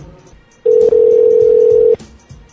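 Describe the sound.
A telephone keypad tone sounds during a voicemail menu as a key is pressed: one loud, steady electronic beep of a single pitch, holding for over a second before it cuts off, with quiet line hiss on either side.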